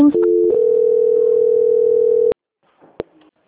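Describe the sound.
Telephone dial tone after a dropped call: a steady, loud, unbroken tone lasting about two seconds that cuts off with a sharp click, followed by a second click and faint handling noise.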